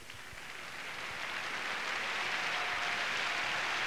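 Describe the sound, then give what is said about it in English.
Audience applause greets Aaron Copland at Avery Fisher Hall in New York City's Lincoln Center as he comes to conduct the New York Philharmonic: dense, steady clapping, fairly faint, that swells gradually and holds. “And now here is Aaron Copland, greeted by the audience here in Avery Fisher Hall at New York City's Lincoln Center for the Performing Arts to conduct the New York Philharmonic in his own symphonic ode.”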